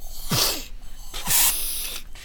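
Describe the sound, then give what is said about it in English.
Two short hissing bursts from a spray, each opening with a quick low click, separated by a brief pause, with no talk. “hang on a second. I need my spray.”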